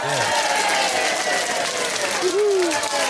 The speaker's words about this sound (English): All right, enough of that studio audience. Quiet, silence. Who let those people in here?